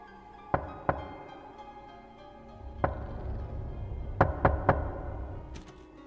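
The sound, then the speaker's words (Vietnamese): Knocking on a door: six sharp, loud raps in small groups, two early, one alone, then three quick knocks in a row near the end, over a low steady background hum. “tiếng gõ cửa bất giác lại vang lên một lần nữa, rất khó chịu, ba nhịp một.”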